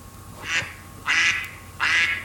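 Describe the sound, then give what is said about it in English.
A pet duck quacks three times after the rain has stopped. The calls are nasal, raspy and fairly loud, spaced about half a second apart, with the last two longer than the first. No one speaks. “While my pet duck and I go splashing in the puddles.”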